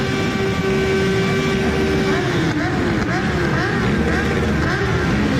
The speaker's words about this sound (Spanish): Antes del funeral, una marcha motera recorría la localidad en su memoria.